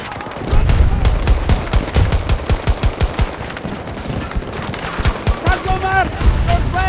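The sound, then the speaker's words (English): Automatic gunfire rattles in a video game firefight. The rapid shots come loud in several bursts with short gaps between them, and a voice can be heard briefly near the end. “I'm shooting at one Mav and another Mav killed me.”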